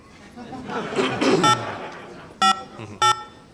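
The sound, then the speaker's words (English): Touch-tone dialing of a phone number on a telephone line: three short, bright electronic beeps spaced about a second apart, following a stretch of muffled voices and noise. “Have a dial tone? Okay, let's not blast the audience too much. We're going to dial the number now.”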